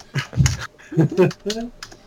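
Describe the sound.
Two-finger typing on a computer keyboard: a few irregular, uneven clacks in short bursts, mixed with a voice.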